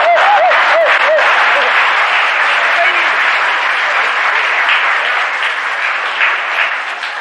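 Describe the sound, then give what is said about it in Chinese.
Spectators at a table tennis match cheer and applaud as the Chinese player wins the first game, a loud, continuous roar of clapping and shouting with a voice talking over it throughout. “这时全场很多观众不得不起立，为我们中国队员取得第一局的胜利而欢呼”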